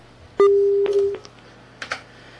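A telephone disconnect tone follows a caller hanging up on a phone-in line: one steady, mid-low beep lasting under a second, then a few soft clicks and a short burst of faint noise.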